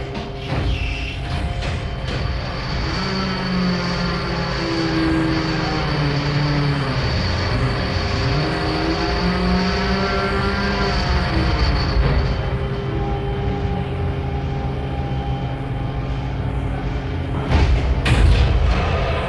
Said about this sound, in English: Aircraft carrier, porte-avion.